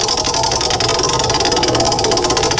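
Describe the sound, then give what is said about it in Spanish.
A prize roulette wheel spinning during a call-in game, a loud, continuous rattling whir with rapid, even ticking that runs through the whole clip without a break. “Lanza la ruleta. Vamos, ruletona.”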